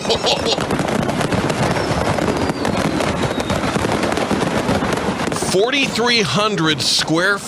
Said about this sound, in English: Is that fireworks? That is the sound of a fireworks factory in Russia that caught fire.